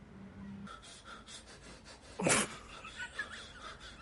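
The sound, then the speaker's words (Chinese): Someone breathing underwater makes faint, soft breathy puffs, a few short rhythmic breaths with one louder, harsher gust near the middle. “看，我正在水下呼吸。”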